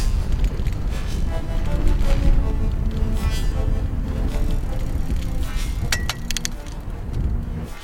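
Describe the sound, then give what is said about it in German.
Bicycles are ridden along a broad main street in a German town, making a steady rolling, rumbling noise. Light clinks and rattles come through at times, and sharper metallic ticks stand out near the end. “Von der Dorfkirche in Rössen fahren wir mit den Rädern auf die große Friedrich-Ebert-Straße und befinden uns nun in Leuna-Stadt.”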